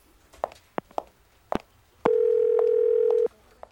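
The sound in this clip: A telephone dial tone heard before a morning call: a few sharp handset clicks and knocks, then a steady, even hum that holds for just over a second and stops abruptly, followed by one more click.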